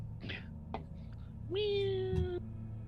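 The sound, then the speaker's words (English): A person imitates a cat's meow during a tabletop role-playing game: one drawn-out, steady-pitched meow lasting about a second, heard alone after some softer background noises. “Meow.”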